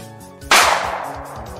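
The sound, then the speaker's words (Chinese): A single gunshot in a dramatized scene of firing on protesters: one sharp, loud crack with a sudden onset and a decaying tail, set over a low, steady musical background. “谁开枪的？”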